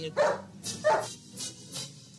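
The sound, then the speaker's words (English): Dog barking a few times in short, sharp bursts. The first two barks are the loudest and are followed by softer ones, with no talk over them. “Shut up, doggy. Nice doggy. You're not a mutt.”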